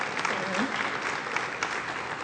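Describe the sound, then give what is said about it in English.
Audience applause welcomes a speaker to the stage at a Bible teaching event: dense, steady clapping from a crowd that holds at an even level from start to finish. “So can we put our hands together and welcome to Nicole. Welcome to stage, Nicole Unice.”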